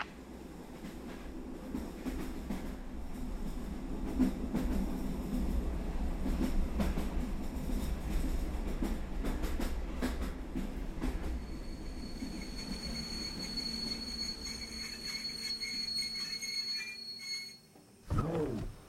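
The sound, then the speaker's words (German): A train rumbles and rattles along the tracks, heard from inside a carriage at night: a steady low roar with rhythmic clatter, thin high squealing tones in the later part, then a sudden dip and a short loud burst near the end. “Ich bin wohl doch eingeschlafen, obwohl das bei dem ganzen Gerumpel und Geratter im Zug eigentlich gar nicht möglich ist.”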